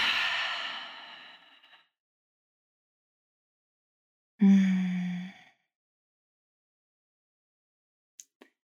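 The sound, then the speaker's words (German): A deep breath sounds as a long, airy exhale that fades out, then after a pause a short breathy sigh with a low voiced tone, followed by silence and a couple of faint clicks. “deswegen nehme ich jetzt einen tiefen Atemzug.”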